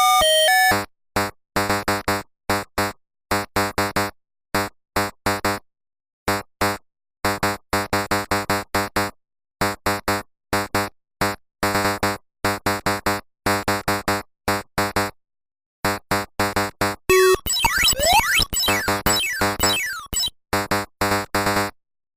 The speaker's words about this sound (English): they brought out Pac-Man for the Atari 2600, and Let's just play a little bit of the Pac-Man sound effects